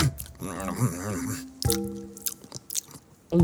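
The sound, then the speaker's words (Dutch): Crunchy bites and chewing as someone eats an apple, with a voice humming contentedly between the bites. “En voor jou heb ik een appeltje, alsjeblieft. Hoor, lekker.”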